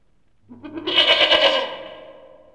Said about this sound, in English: Goat. G. Goat. It's a goat.